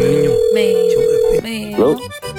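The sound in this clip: Telephone ringing on a call placed to a listener: a steady, sustained ring tone lasts about a second and a half, then a voice comes on the line.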